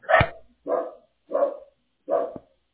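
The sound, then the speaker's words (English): A dog barking four times in an even rhythm, each bark loud and sharp with short silent gaps between, with no voices present. “you go pet that dog. I'm so sorry about that.”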